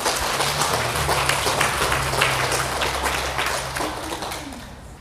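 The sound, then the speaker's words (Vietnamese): An audience at a Buddhist dharma talk claps hands in a dense, steady patter of many claps over a low hum, slowly fading toward the end. “Mừng quá, vô tay.”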